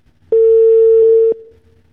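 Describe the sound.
A single ringback tone sounds on an unanswered phone call to a political candidate: one steady, mid-pitched tone lasting about a second, then only faint line noise.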